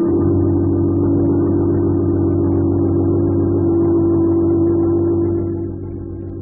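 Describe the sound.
A car engine drones steadily as the car drives off, a loud, even hum that holds for about five seconds and then fades quickly.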